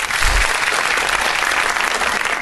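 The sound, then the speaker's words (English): Applause greets a guest arriving in a studio: a dense, even patter of many hands clapping, steady and loud for the whole stretch, with no voices over it. “Wait, I think I've got applause. Give me a moment.”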